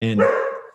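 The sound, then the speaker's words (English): A dog gives a single short, loud bark that fades out quickly, with a spoken word briefly overlapping at the start. “hang on, that was my dog.”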